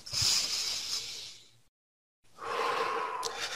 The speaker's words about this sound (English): And then you take a deep breath.